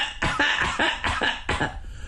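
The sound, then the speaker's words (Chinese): A storyteller voices several quick, rasping coughs in a short burst, imitating a character clearing his throat before speaking, with no words between them. “先咳嗽几声”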